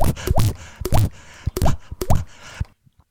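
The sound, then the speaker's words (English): Deliberate microphone plosive pops, deep bassy bursts blown into the mic, come as many loud thumps in a quick, uneven run before tapering to a few faint pops at the end. “That was a big plosive there, Alex. I'm really sorry. Listeners, just for some clarity there, Alex edits the show and hates it when I make this noise.”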